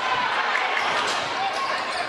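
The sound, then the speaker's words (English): A basketball is dribbled on a court during a school game between Columbia and White Creek, its bounces buried under a constant wash of crowd noise and people talking. “Drives. Double dribbles.”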